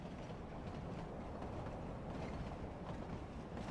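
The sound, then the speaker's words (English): A moving train heard from inside a boxcar with its door open rolls past a wheat field as a steady, faint, unbroken rumble with a broad hiss. No distinct wheel clacks or voices stand out. “Rose and Ollie sit in a train boxcar with an open door gazing out at the open expanse”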